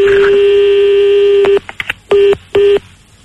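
Telephone touch tones sound as a number is dialed: a long, loud, steady tone, then brief clicks and two short, evenly spaced beeps.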